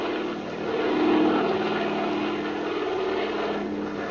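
Propeller airplane engine drones as the aircraft circles out over a bay to land, a continuous low hum that swells slightly early on and then holds level and steady.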